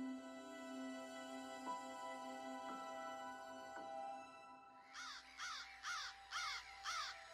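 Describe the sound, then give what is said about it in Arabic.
Harsh crow caws, about five in a quick run, ring out over a steady sustained musical drone. “قصر الإمارة يشثم فوق الكوفة، نسر هائم جاثم على فريسته، غراب أسطوري ينعب فتطير الرؤوس وتطيح الأيادي”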